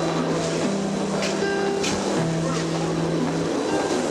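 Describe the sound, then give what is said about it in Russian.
Waves crashing against an embankment parapet on a windy November seafront, a loud, continuous roaring wash of surf with a low droning tone running beneath it. “Волны ревя разбиваются на парапет, словно хотят добежать до ларька”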